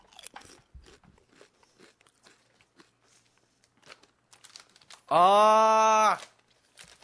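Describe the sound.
Crisp biting and chewing of crunchy Haisai sauce flavored snack chips: a run of faint crunches, then a loud, sustained tonal sound near the end.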